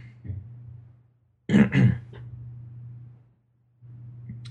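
Throat clearing as a prince readies to open a trial: a short, harsh two-part rasp that stands out loudly from a faint, steady low hum.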